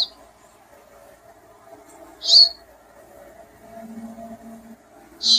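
Bird song and begging calls: three brief, high-pitched chirps, spaced a couple of seconds apart, stand out clearly over a faint low background.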